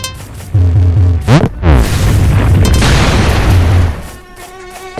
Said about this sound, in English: Now boom. You're hearing that is me as I fall. You can fall from different heights.